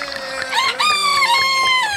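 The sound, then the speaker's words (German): A rooster crows at midnight, one long, loud call with a wavering pitch that holds steady to the end, with faint low clucks underneath. “Mitternacht. Ist es normal, dass Hähne um Mitternacht krähen?”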